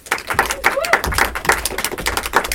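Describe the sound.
Sparse, rhythmic clapping from a small audience welcomes a screenwriter guest on a film talk show, with crisp individual hand claps falling in a quick, steady beat.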